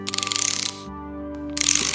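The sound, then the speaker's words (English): Ratcheting socket wrench clicking in two quick runs of rapid, even ticks separated by a short pause, over steady musical tones. “Thanks to my trusty socket wrenches, I know I fixed it this time.”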